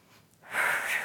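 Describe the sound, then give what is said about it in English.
A breath during Pilates breathing in the classical Hundred exercise, where breaths are counted in sets of five inhales and five exhales. A faint airy hush swells into a stronger, breathy rush of air and holds to the end. “There's a 5 inhale and 5 exhales.”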